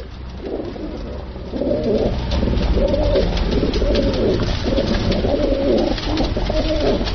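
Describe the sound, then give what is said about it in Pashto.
Pigeons coo over and over at a Kabul bird market where other birds are also sold, a steady stream of low, throaty calls layered over constant loud background noise. “کابل کې د کافوري شکوڅه هغه ځای دی چې هلته له کوترو سره نور مارغان هم خرڅیږي”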